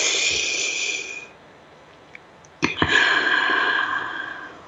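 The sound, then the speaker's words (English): A deep breath taken during a guided pause, heard as a long, airy breath sound, a short stretch of near silence, then a sharper onset leading into another sustained, breathy exhale. “So I'm going to invite you to be present, to actually stop and pause for a moment. Let's take a breath together.”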